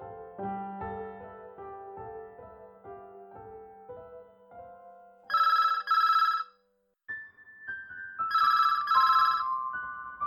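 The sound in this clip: A telephone rings with an incoming call from a mother, an electronic ringtone that mixes a stepped melody with bright trilling ring bursts, in two rounds split by a short silence, fairly quiet and with no talk.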